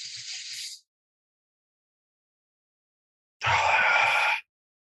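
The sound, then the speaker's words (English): A deep breath drawn in through the nose during a breathing exercise for upper-body training: a short, hissy breath, then after a silent pause a longer, louder, fuller airy rush. “I take a big breath in through my nose and I try to fill my lower lungs of my lower lobes of my lungs.”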